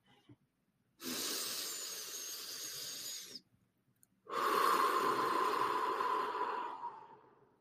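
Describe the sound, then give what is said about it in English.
Two slow, deliberate deep breaths, one drawn in through the nose and one let out through the mouth, each lasting a few seconds with a brief pause between, soft and breathy and alone without any talk. “take some long, slow, deliberate, deep breaths in through your nose and then out through your mouth. Kind of like this.”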